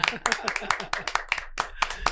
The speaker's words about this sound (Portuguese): Para esse ser humano incrível, que a gente comece com uma salva de palmas para o Dani. Salva de palmas aí, gente.